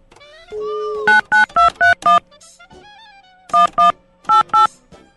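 Telephone dialing a call: a brief steady tone, then nine short electronic keypad beeps in groups of five, two and two, with short pauses between the groups.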